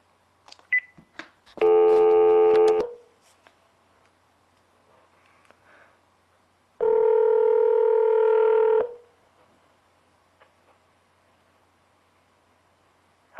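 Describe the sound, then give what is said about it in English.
Ringback tone of a test call placed on a Magic Jack internet phone: two long, buzzy tones about five seconds apart, preceded by a few faint clicks, with quiet in between. “So I'm going to make a test call to my friend here.”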